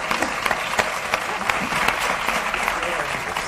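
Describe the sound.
A television talk show's studio audience breaks into applause on a producer's cue, a busy, steady patter of many hands with sharp individual claps popping out of the dense wash throughout.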